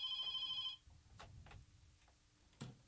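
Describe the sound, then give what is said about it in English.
A telephone rings for an incoming call-in caller: a brief, bright electronic ring burst of layered tones at the start, then it cuts off, leaving faint ticks and clicks over low background noise. “Oh, we have a caller again.”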